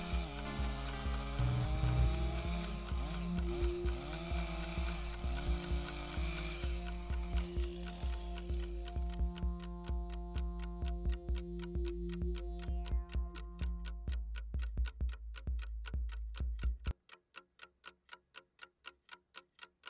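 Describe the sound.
A clock ticks in a steady, even rhythm, with many crisp ticks under a sustained tonal musical background. The music cuts out near the end, leaving the ticking alone.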